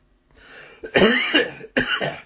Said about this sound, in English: No, I don't have the virus. I've had this cough.